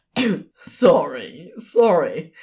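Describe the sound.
A voice acts out hurried throat clearing after a snorted laugh, with rough, breathy bursts and gravelly voiced rasps, moderately loud and without words.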